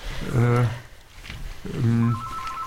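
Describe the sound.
A telephone rings with an incoming call, two loud tonal bursts of its ring separated by a short gap, followed by a higher, thinner tone as voices talk over it.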